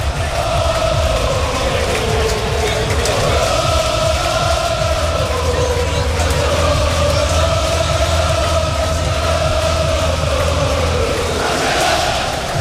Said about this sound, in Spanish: El ambiente es tremendo, banderas albinegras al viento, han sacado un tifo, está lleno a reventar, todas las entradas vendidas, 15.000 espectadores en el Skyfy Castalia, que vamos a escucharlo porque suena así a pocos minutos de que empiece el partido.